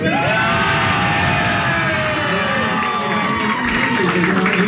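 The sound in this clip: A party crowd shouts and cheers at a music venue, a dense, continuous roar of many voices with whoops and yells, loud and steady throughout.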